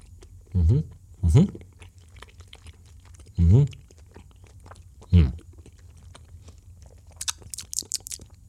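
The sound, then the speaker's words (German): Chewing of Trolli glow-worm gummy candy comes through as four short, soft, moist bursts spread across the stretch, with quiet pauses between them and a few faint high clicks near the end. “Und dann machen wir das mal den direkten Test. Wir fangen mal an mit den Glühwürmchen von Trolli.”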